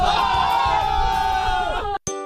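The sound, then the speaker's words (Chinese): Crowd of children cheering and shouting together after their rural football team wins a championship: a loud, sustained collective cry that breaks off abruptly, followed by a single bright ringing ding. “开心不开心？ 开心！ 高兴不高兴？ 高兴！ 欢呼吧！”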